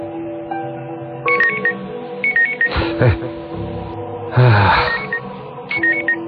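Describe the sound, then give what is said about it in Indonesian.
A telephone rings at night with a melodic electronic ringtone: several short, high, warbling trills repeat at intervals over a steady background hum, with broader whooshing bursts in between. “telepon siapa malam-malam gini?”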